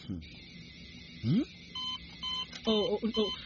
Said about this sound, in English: Your device just went off. It means that you're about to have a seizure.